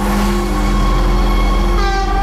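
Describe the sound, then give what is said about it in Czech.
A refurbished Stadler train unit with a mid-mounted engine arrives at Plzeň main station: a loud, steady rumble carrying a sustained tonal drone, with higher tones shifting in near the end. “Pátou kolej plzeňského hlavního nádraží právě teď přijíždí nově opravená souprava Stadler.”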